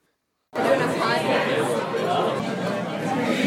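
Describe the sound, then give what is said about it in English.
Dense, overlapping chatter of many voices in Christopher's, a bar in Cambridge just off Mass Ave. The crowd talk starts after a brief silence and then holds steady and loud throughout. “What you're hearing is the sound of a bar in Cambridge, Christopher's. It's just off Mass Ave,”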